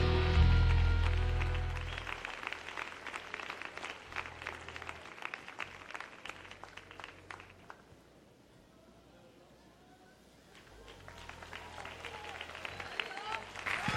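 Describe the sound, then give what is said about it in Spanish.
A church audience applauding for Christ: scattered sharp hand claps of uneven loudness that thin out midway before building up again. “Dale ese aplauso a Cristo fuerte, vamos.”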